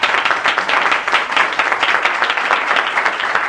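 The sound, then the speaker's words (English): Applause fills a legislative chamber as members welcome a visiting city councilman from Homer: dense, steady clapping from many hands, loud and continuous for the whole stretch, with no talk over it. “Cushing, if you please stand, members and help me welcome him.”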